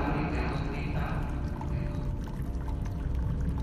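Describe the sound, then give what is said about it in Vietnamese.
Water scooped from a barrel and drunk by the bowlful, a sound effect in a ghost story: a steady, full pouring and sloshing of water that runs continuously and evenly throughout. “Lập tức lạt đa múc nước trong thùng rồi uống liền một bát”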